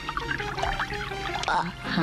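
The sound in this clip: Water pours in a steady stream for about two seconds, a continuous splashing flow with no pause.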